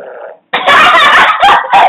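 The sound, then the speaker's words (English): A fart: a loud, raspy, sputtering burst that runs for over a second, breaking briefly before ending in a final blast. “just farted.”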